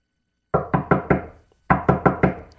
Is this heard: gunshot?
no